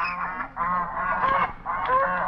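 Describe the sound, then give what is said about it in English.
Swans and ducks call on a lake at night, a dense run of overlapping honking calls that carries on almost without pause in loud bursts. “looking out toward the dark lake where swans and ducks are floating through the cool water.”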